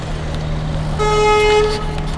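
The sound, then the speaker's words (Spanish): A single horn blast of about a second from trucks arriving at night to unload sounds over a continuous low engine rumble that persists before and after it. “Y esto pues todo el rato camiones viniendo, el que llega y descarga viene otra vez, y esto toda la noche va a ser así.”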